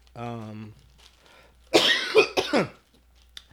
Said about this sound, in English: I'm sorry, y'all, for the coughing.